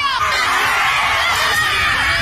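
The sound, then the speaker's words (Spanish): A group of people shouting during a ritual in a forest, their loud, dense cries overlapping continuously from start to finish. “Aquí los rituales. Mira, rompen palos. Gritan.”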